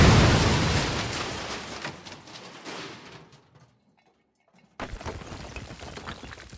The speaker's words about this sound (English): He has exploded! And someone is responsible.